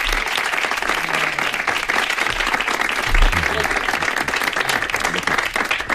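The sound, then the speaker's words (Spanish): Audience applause in a radio studio, a dense steady roar of clapping that lasts the whole clip at a loud, even level. “Por favor, un aplauso para Mario.”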